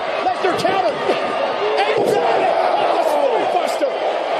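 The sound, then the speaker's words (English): A wrestler's body slam onto the mat at a WWE Vengeance 2003 match, the impact largely buried under a loud, constant crowd roar with voices talking over it. “Kurt Angle going for an Angle slam. Brock Lesnar countered.”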